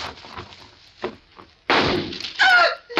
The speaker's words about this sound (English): I just shot a couple of holes in your tires, that's all.